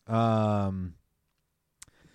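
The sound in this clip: A single crisp mouse click sounds as an item is selected in a game inventory, following a sustained voiced hum and a brief silence.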